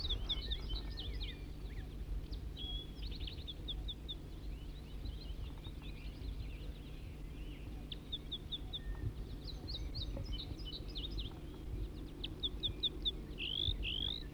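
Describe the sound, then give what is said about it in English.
Wild bird singing steadily throughout, with many quick high chirps, trills and whistled phrases over a constant low rumble and hum. “Start recording the wild bird now in song.”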